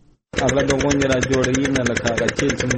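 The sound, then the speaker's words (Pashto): Diesel generator engine pumping water from a deep well to irrigate a four-jerib wheat field in Kandahar's Dand district. A loud, steady mechanical drone with rapid, regular pulsing begins after a short silence and keeps running evenly. “د کندهار په ډنډ ولسوالۍ کې خپل څلور جریبه د غنمو کښت د جنراتور په وسیله اوبه کوي”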